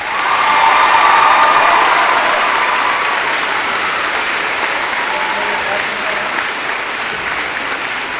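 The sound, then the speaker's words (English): Applause from an audience as a business department staff member is honored and congratulated. Loud, dense clapping with some crowd noise starts quickly and continues steadily, easing slightly toward the end. “Let's hear it for Mr. Sargent.”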